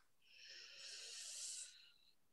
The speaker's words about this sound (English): bring your hands onto your heart and do a couple of breaths here. Breathe in